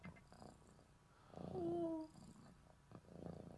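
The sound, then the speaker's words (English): Faint cat purring, a soft low rumbling throb that swells in the middle, where a brief higher whistling tone appears, then carries on quietly. “But if you could listen close, you could hear him purring.”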